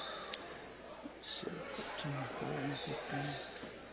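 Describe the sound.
A basketball bounces on the court during a girls' high school game, East Forsyth at North Hall, giving a few sharp thuds spaced apart beneath a commentator's running talk.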